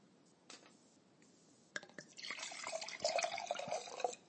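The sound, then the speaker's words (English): Liquid pours into a glass as another drink is served: a faint knock or two, then a steady splashing, gurgling stream for about two and a half seconds, fairly quiet. “And yes, that was the sound of me pouring another glass.”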